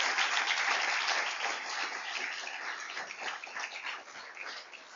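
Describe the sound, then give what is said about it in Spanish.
A church audience applauds during a sermon, a thick, slightly muffled patter of many hands that stays steady and eases a little toward the end. “Aleluya, dele ese aplauso a Jesucristo.”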